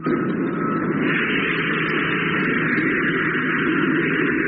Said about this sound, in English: Well, stand by to switch in motor. Standing by. 1 degree. Contact.